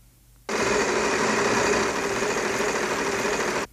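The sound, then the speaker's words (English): A prize wheel being spun to pick a music genre gives a loud, steady, rapid whirring clatter that starts abruptly, runs for about three seconds and stops sharply. “we need to spin the wheel again and see what we've got coming up after that. So let's give the wheel a couple of spins here.”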